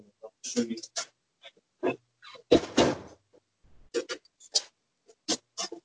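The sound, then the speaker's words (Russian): A door is being closed indoors: a few faint clunks and rattles, scattered and irregular, with a brief louder burst of handling noise in the middle. “Сейчас, секунду, мне надо дверь закрыть”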